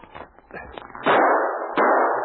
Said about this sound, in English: The man among the trees showed themselves for the barest second when they fired, and the sergeant missed his target several times.